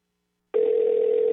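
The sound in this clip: A telephone tone on an outgoing call that goes unanswered, starting after a brief silence and holding as a steady, even electronic tone to the end.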